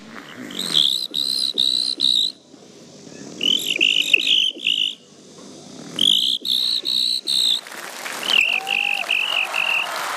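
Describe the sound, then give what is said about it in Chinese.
A person imitates a cricket's chirping as a playful game: shrill, rapidly pulsed trills come in four separate bursts with short pauses between them, and no talk is heard. “第二种声音，给我学一只蟋蟀。”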